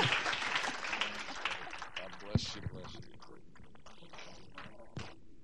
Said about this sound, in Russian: Хорошо, давайте бурными аплодисментами поприветствуем.